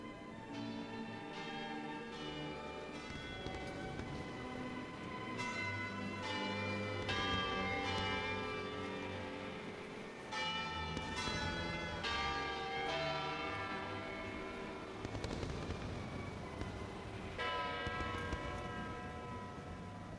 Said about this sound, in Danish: Klokken den slår altså 12